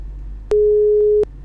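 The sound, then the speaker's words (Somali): A single steady busy-signal beep, lasting under a second, sounds after a caller's phone line drops. Faint hiss sits before and after the tone. “waan ka xumahay dhegeystahan qadka telefoonka ayaa ka go'ay”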